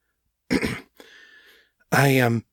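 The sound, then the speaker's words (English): A woman's throat clearing, voiced by a narrator, comes as a short rough burst followed by a quieter rasp before speech resumes. “She cleared her throat.”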